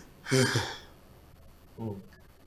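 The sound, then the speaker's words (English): A deep breath is drawn during a pause in speech, a loud, airy intake with a slightly voiced edge. After a short gap comes a briefer, softer voiced breath. “That is why I took a deep, let me take a second breath again.”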